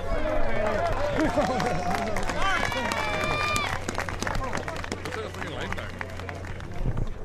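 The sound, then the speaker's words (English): A golf gallery crowd as a golfer walks to the first tee: steady applause with many voices shouting and cheering over it, loudest early on and continuing throughout. “So that was the sound of Tiger entering the first tee box.”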